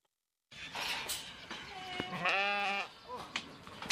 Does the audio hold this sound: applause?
no